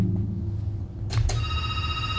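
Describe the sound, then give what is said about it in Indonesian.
An electronic telephone ring tone sounds partway through as steady, high-pitched tones over a constant low hum. “Ada telepon lagi kan? Iya, ada telepon lagi”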